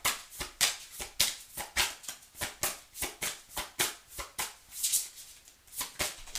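Tarot cards slapped down one after another as they are shuffled and dealt, making crisp papery snaps in a brisk, regular rhythm. Many evenly spaced card hits follow each other with no voices.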